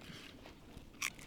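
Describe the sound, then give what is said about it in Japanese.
Crisp crunch of crunchy food being bitten and chewed beside a campfire: soft, faint chewing noise and one sharp, bright crunch near the end. “パリパリ。なんか周りから笑われながら食べてますけどね。”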